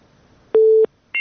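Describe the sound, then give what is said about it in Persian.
A phone line gives a busy tone after a call is disconnected: one steady, mid-pitched beep, then a pause and a shorter, higher beep. “بله تماس شون قطع شد”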